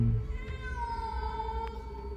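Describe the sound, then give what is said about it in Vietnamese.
An angry cat yowls from its hiding spot in a hibiscus hedge, giving one drawn-out, wavering, harmonic cry that holds a fairly steady pitch over a low rumbling background. “là một con mèo kêu lên một cách giận dữ khi khuôn mặt của tôi vừa thò vào chỗ nó đang ẩn nấp”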